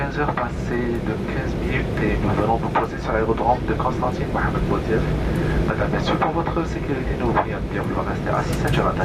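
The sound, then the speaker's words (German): Airplane cabin noise during the approach and landing at Constantine airport in Algeria, on a weekday afternoon: a loud, steady, broad roar runs throughout, with voices murmuring inside it. “Anflug auf Konstantin. Es ist Nachmittag. Landung am Flughafen Mohammed Boudiaf.”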